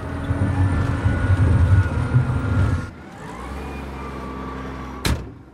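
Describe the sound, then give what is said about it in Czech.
A truck shaking and rattling over rough terrain: a loud, low engine rumble for about three seconds, then a quieter steady hum with a thin whine and a single sharp knock near the end. “a už se to sype. Vozidlo se otřásá.”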